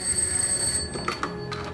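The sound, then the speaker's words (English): A secret scrambler telephone rings in a 1942 wartime setting, a bright, steady electric bell tone sounding alone at moderate volume with no talk, broken by a few short ringing bursts toward the end. “The scrambler rang the secret phone,”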